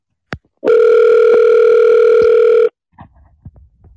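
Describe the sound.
A ringback tone plays on an outgoing telephone call: one steady, loud, sustained electronic tone lasting about two seconds, then faint, brief sounds.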